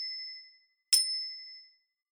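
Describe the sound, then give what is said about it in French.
A pendulum clock strikes midnight in clear, high metallic chimes, heard alone and fairly faint. Each sharp strike rings out and slowly decays before the next begins, with a few strikes in all. “Moi aussi, je regardais la pendule qui allait sonner minuit. Enfin, minuit a sonné.”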